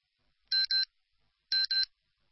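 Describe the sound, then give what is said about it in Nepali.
Radio time-signal beeps mark ten in the morning: two pairs of short, high electronic tones, each pair a quick double beep, about a second apart, clean against silence. “बिहान 10 बजेको प्रकृति समय सन्देश”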